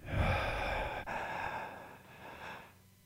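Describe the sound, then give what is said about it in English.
A deep inhale drawn in during a guided breathing exercise: a long, breathy rush of air that is loudest at the start and slowly fades over about three seconds. “I want you to breathe in, inhale as much love as you can drag into your lungs. One, two, three, breathe in.”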